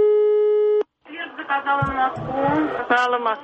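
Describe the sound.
A telephone line tone sounds after a number is dialed to a railway information line to ask about train times: one steady electronic tone lasting under a second that cuts off abruptly. After a short silence, a voice begins speaking.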